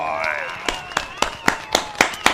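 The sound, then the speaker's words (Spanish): Rhythmic clapping from an audience at Plaza Victoria in Pereira: about seven sharp claps in steady time, following a brief tonal voice-like sound at the start. “Dense ustedes mismos un aplauso, gracias por estar aquí”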